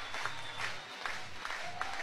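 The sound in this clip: Crowd cheering in an arena at an Oklahoma college basketball game: a low, steady roar of voices mixed with scattered clapping that stays fairly faint and even throughout.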